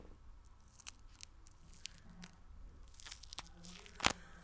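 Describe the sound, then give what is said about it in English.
Faint, crackly tearing as something dry is peeled off: soft scattered crinkles and snaps build to one sharper rip near the end, with no talking over it. “It's pretty dry. I'm going to see if I can peel some off and if you could hear it on the mic.”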